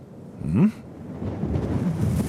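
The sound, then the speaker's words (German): Strong wind blows on a beach. A sharp gust whooshes up early, then a steady, low, rumbling roar of wind noise continues to the end, with no voices. “Da weht's. Und es weht doll.”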